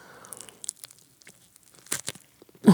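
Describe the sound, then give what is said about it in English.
A bite into a crusty heel of sourdough bread gives scattered crackly crunches and crinkles over a few seconds, ending in one loud, full crunch. “Okay, I'm about to bite into this honkin' heel of bread that Aditi has brought me in the studio.”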